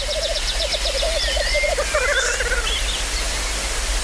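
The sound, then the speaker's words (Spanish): Male birds display at a lek, giving repeated rapid bubbling, gurgling call series at low and higher pitch over a steady noisy background, with the calls trailing off after a few seconds. “Y los machos, pues como los urogallos, se reúnen en el lek, en grupos donde cada uno se exhibe, se para que las hembras vengan y elijan al mejor. Y eso es lo que estáis oyendo.”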